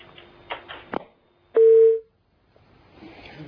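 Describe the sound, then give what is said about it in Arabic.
A single telephone tone on an incoming call-in line: one loud, steady, mid-pitched beep lasting about half a second. A few faint clicks come before it, and quiet, low background noise follows. “عفوا اتصال ونتم بأمر الله.”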